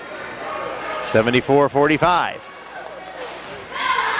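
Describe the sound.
A basketball is dribbled on a court during a game, with a few quick bounces heard under a commentator's continuous talk.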